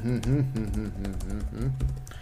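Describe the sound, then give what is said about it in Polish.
Soft, quick keyboard taps and clicks run under a person's voice, which carries on across the short stretch of typing. “Ja już tutaj do mojego wywiadu piszę. Tutaj, moment.”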